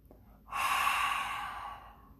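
Deep breathing during a yoga breathing exercise: one long, airy, hissing breath rises abruptly and holds for over a second, then slowly fades away into quiet.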